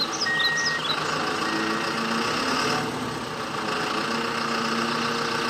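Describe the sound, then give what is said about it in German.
A tow truck's engine runs steadily while the vehicle tows, giving a low, even, droning hum with a faint thin whine above it and no clear change in pace. “lasst uns einmal zur Seite gehen, damit der Abschleppdienst hier in Ruhe arbeiten kann.”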